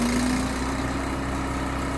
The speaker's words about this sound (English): Then they hook up a grinder. It's mounted on a trailer, and the pods get fed into a metal cone and ground up.